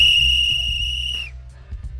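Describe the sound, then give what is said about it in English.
A whistle blown in one steady, shrill blast lasting just over a second, its pitch sagging slightly as it cuts off, with a low rumble running underneath. “My whistle's waterlogged. My whistle's in the tundra. Get my whistle. Stop blowing my whistle.”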